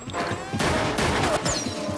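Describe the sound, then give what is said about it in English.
Gunfire exchange as someone in a car fires a sniper rifle and the targets shoot back: a dense, loud, continuous barrage of shots and crashing impacts filling about two seconds. “Someone in a car shoots at them with a sniper's rifle, and they fire back.”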